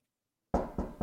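Knocking on a door: three firm knocks in quick succession after a moment of silence, each a loud, dull thump.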